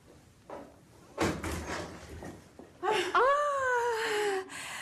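A door opening in a radio drama: a thump, then a long, fairly loud creaking squeal whose pitch falls slightly.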